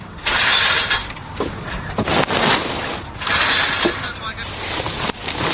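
Harvesting machines grind and rattle during a timed team harvest competition, with harsh mechanical noise coming in repeated loud bursts and short dips between them.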